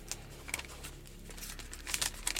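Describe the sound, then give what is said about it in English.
Paper envelope being opened during a Christmas quiz, crinkling and tearing in several short, quiet bursts with brief pauses and brighter rustles near the end, with no voices. “So please open the envelope and see what is within.”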